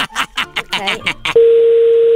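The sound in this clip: Telephone dial tone as a call is placed to a women's shoe shop. After a brief burst of speech-like sound, a loud, steady single-pitched tone starts and holds unbroken to the end.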